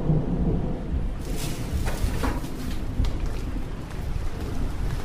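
Rain with thunder: a constant hiss of downpour under a low rolling rumble, with a few brighter crackling bursts, and no voices.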